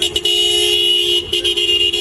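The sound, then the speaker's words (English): Car horn honking from a white Toyota SUV at a gas station: one loud, sustained, steady blare lasting the whole moment, broken by a few very brief dips. “Questions from reporters, honked his horn, and sped off.”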